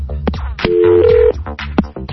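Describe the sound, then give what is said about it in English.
A steady electronic telephone tone lasting about two-thirds of a second, which steps slightly higher partway through, while people talk before and after it. “That's why you didn't hear that. That was the phone. That was the phone. Hang up that phone.”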